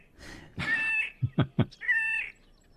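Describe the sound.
A bird's breeding-season song that sounds like a cat's meow. Two drawn-out, nasal mewing notes frame three short, lower bursts, moderately loud and heard alone.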